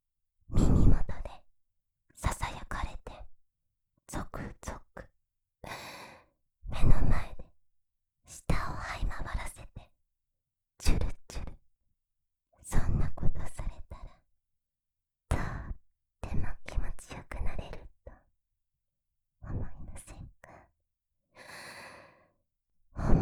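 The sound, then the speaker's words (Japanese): Deep breathing in and out, many slow, airy breaths and exhales separated by short silences, some sounding like sighs. “深呼吸して落ち着きましょう。吸って、吐いて”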